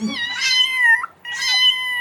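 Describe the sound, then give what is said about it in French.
A frightened two-year-old cat stuck high in a tree meows twice, two clear, high, drawn-out cries separated by a brief pause, with the first one sliding down in pitch at its end. “un petit miaulement de peur”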